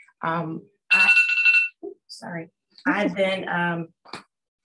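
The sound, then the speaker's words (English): A phone alarm reminder goes off in a few short tonal bursts, bright electronic chimes with a steady high tone, separated by brief gaps. “that was my alarm to remind me to do my afternoon affirmations.”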